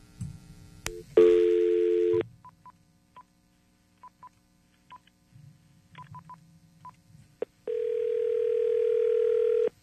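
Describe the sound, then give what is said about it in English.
Telephone call placed to a radio contest winner: a steady dial tone, then a quick string of short touch-tone dialing beeps, followed by a long, even ringing tone at the end. “Going to call them up, break the good news, kick off the weekend just the way that you should.”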